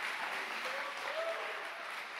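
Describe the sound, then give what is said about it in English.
Congregation clapping hands and shouting during a church service: a fairly faint, steady wash of applause with a voice or two rising faintly through it. “If you believe in that tonight, go ahead and clap your hands and give the Lord a mighty shout.”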